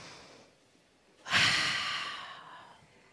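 A single deep breath drawn in sharply after a quiet start, its loud airy rush peaking at once and then slowly fading away over the following second or so.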